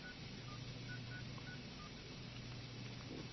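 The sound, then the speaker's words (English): Telephone keypad dialing tones from a BlackBerry: a quick series of short, evenly spaced electronic beeps, fairly quiet over a low steady hum. “I'm dialing right now.”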